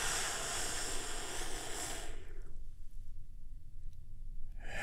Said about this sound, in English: Take another big, deep, healing breath with me, if you would.